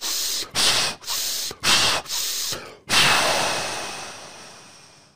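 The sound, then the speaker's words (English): A person takes rapid, forceful breaths, alternating in and out in quick, noisy bursts, then releases one long breath that trails away slowly. The breathing is heard alone with no talk. “you use three rapid breaths, and you take first in and then out, and you're like.”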